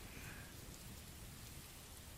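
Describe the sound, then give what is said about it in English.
A rainstorm, with dense rainfall hissing and pattering steadily without pause as a continuous broad wash of noise. No voices. “I'm not scared of the storm, okay?”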